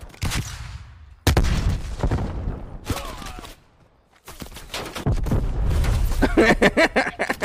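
Video game gunfire in loud, rapid bursts, with a near-silent pause midway before heavy shooting resumes and runs to the end.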